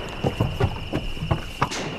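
Hooves of a very tired horse clip-clop at a steady walking rhythm, a series of soft, dull knocks over constant background noise with a thin steady high-pitched whine.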